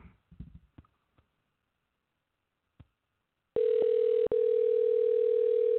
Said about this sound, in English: let me just ring him up